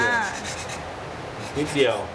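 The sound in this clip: Hand sanding on the corner of a piece of softwood, a steady scratchy rubbing that runs throughout, moderately loud, with a brief stronger stroke near the end.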